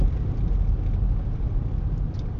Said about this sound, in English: Driving the old Acura through the snow.